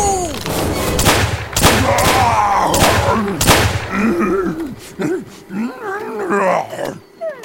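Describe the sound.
Gunshots in an audio drama: a few loud, sharp bangs ring out amid tense scene noise, followed by strained voices talking and shouting.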